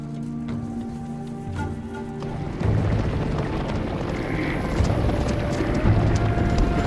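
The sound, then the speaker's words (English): A herd of animals stampeding through a field makes a dense, low rumbling roar that swells louder partway through and then holds steady as a continuous thunder of hooves. “They stop their bikes on a slope overlooking the stampede.”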